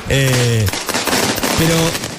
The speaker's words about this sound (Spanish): En el medio de la tribuna pusieron ahora estas bombas que explotan